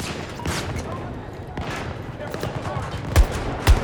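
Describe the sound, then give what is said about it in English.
Shotgun fire in a shooter video game: a few sharp blasts, the two strongest near the end, over busy game noise, with voices in places. “I just shot him from like 100 yards away with a shotgun.”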